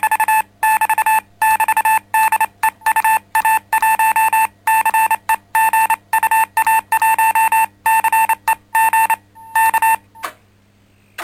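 Radio receiver tone while a nearby transmitter of about 80 W is keyed by a foot pedal: a loud, steady beep switched on and off in irregular bursts like Morse keying. It ends after a brief pause and a faint blip.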